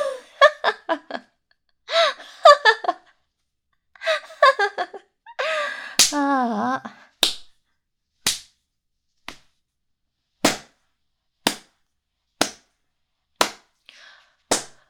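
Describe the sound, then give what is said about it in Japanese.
Punches hit a person's body in a steady series of sharp, dry smacks about a second apart, each one loud and brief. Gasping and strained vocal sounds come before the blows. “殴るの飽きたし疲れたし”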